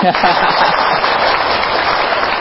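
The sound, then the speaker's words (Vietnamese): Audience applause at a Buddhist teaching talk in Philadelphia: dense, continuous clapping at a steady level from start to end, with a dull, muffled tone. “nên thôi cho ông về đi, phải không, thôi cho ông chào pháo tay đi”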